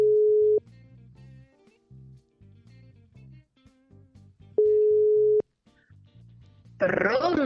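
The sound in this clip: Ringing tone of an outgoing telephone call: two steady, mid-pitched tones separated by a long gap, with faint low sounds in between, then a voice starts talking at the end.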